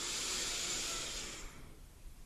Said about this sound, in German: Und das machen wir jetzt mal ganz kurz zusammen. Einatmen durch die Nase.